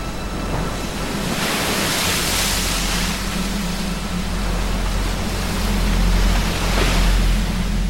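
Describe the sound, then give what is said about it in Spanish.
Sea waves break against the rocks of a breakwater in a continuous, loud roaring wash, with slow surges that swell and ebb and a deep rumble underneath. No voices are heard. “contemplando el mar romper contra los picachos del rompeolas.”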